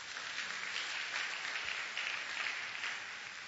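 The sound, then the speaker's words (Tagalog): A church audience applauds during a sermon: sustained, dense clapping from many hands at an even level throughout, with no voices. “Pwede bang palakpakan natin ang Panginoon?”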